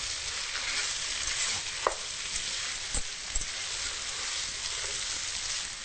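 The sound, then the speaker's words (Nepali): Boiled potatoes fry and are stirred around a pan to get salt into them, giving a steady, even sizzle throughout. A few sharper scrapes and clicks from the stirring stand out above it. “यो आलुलाई पनि एकछिन भुट्ने।”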